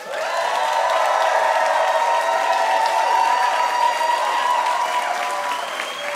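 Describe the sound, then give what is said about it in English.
Audience applause welcoming a guest onto a live comedy quiz show: dense, steady clapping with some cheering that holds at an even, loud level for about six seconds before easing slightly at the end. “Give it up for Kal Penn.”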